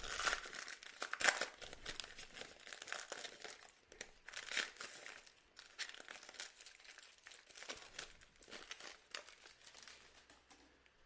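Crinkling and tearing of the wrapper as a pack of UFC trading cards from a hobby box is ripped open, a steady stream of papery crackles for about eleven seconds with several louder bursts.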